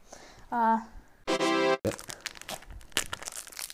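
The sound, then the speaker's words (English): Crinkling and crackling of wrapping as a fresh pack of playing cards is opened, a dense run of sharp crackles that follows brief speech. “Well, opening a fresh pack. I hope you can hear that.”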